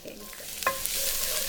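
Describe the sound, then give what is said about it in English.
Garlic fries in shimmering hot oil in a skillet, giving a faint, continuous sizzling hiss with a brief clink partway through. “I really need the oil almost to be sizzling. Mm. So you want the oil to be sort of exactly shimmery hot. Exactly. And we start with garlic.”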